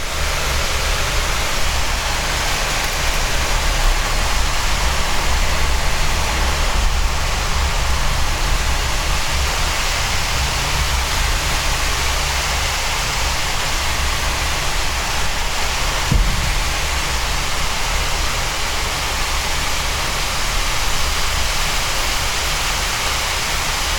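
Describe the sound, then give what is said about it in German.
Steady rain falls without pause, a dense, even hiss layered over a low rumble that holds at the same loudness for the whole stretch, with no voices. “die Atmosphäre genießen, den Regen”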